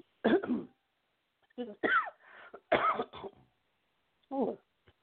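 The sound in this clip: Coughing after swallowing something the wrong way: a few sharp, raspy bursts with short gaps, ending in a final burst and a small throat sound.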